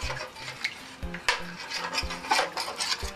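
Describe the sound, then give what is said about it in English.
Stirring a flour and bouillon cube sauce in a pan, with a utensil scraping and clinking against the pan in many repeated rhythmic strokes, alone with no talk. “And stir it for a little while because you want the flour and the cube bouillon to dissolve and get a little smooth.”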